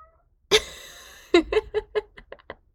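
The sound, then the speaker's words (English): A female cat meows: one long, loud, harmonic meow, then after a pause a rapid run of several shorter chirping meows that grow fainter, heard in a small unfinished closet. “And that's my cat. She would like to say hello because there's no door to this place yet.”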